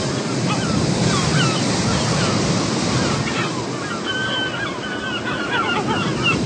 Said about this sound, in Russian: Пенистые волны набегают на песок.